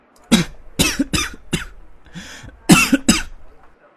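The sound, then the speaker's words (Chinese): Coughing from a cold: a harsh fit of several sharp, raspy coughs in quick bursts, with a short wheezy breath between them, loud and alone without talk. “说到这儿嗓子更痒了，忍不住又是一阵咳嗽，感冒好像比早晨还要严重一些。”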